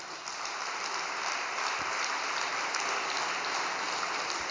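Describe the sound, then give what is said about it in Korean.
Applause from a church audience at an all-night devotion in Yeosu, a dense, steady wash of many hands clapping that holds at an even level throughout with no voices. “박수 한번 드립시다.”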